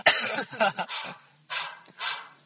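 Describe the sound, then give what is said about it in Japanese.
A dog barks a few times in a short jingle, sharp bright yaps coming quickly at first, then two more spaced out with gaps between them. “さっきとジングルが違う。 そうですね、まあ全然大丈夫だ。 ワンワン言ってましたけどね。”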